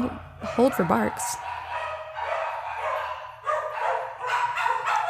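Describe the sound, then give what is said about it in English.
Dogs barking in a house where someone is trying to record, a few sharp, high yipping barks early on, then continuing muffled noise through the rest. “hold for barks. Oh, just trying to record, and it's a goddamn kennel up in here.”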